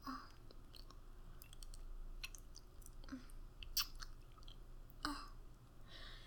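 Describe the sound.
Wet licking and sucking mouth sounds: soft smacks and clicks at irregular intervals, faint and without any talk.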